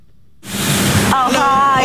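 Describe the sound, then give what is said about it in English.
Car wash in the north of England: after a brief quiet moment, a loud rushing spray of water starts abruptly and keeps going, with a voice talking over it. “A car wash in the north of England. It's not run by Twana Jamal, but I'm told he's been here since he left prison in France. Yeah, wash and dry.”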